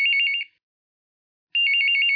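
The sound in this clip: A phone rings for a long-awaited call in two bright, trilling electronic bursts with about a second of silence between them. The ringing is loud and heard alone.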